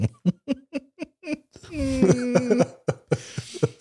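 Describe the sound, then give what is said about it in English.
A person grunting and snorting in a quick run of short, punchy nasal bursts, followed by drawn-out voiced, throaty sounds and a few more snorts. “You're grunting and snorting and...”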